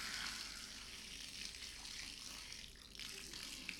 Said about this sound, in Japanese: これでお湯をすくって、バシャ